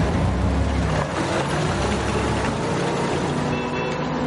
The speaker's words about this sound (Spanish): Cierra la puerta. El autobús se aleja.